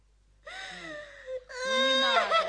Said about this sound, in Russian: Ну, не надо. Ну, не плачь, малыш.